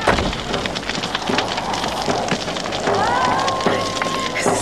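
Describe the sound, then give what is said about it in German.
A burning house fire in a radio drama crackles and hisses loudly and densely throughout, its sharp pops overlapping without pause, while a drawn-out tonal sound surfaces over the blaze partway through. “Das Haus brennt.”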